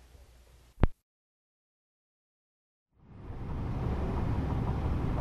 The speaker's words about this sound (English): Dad and I are on the Bruckner. We're driving up to Providence. I agreed to let him drive.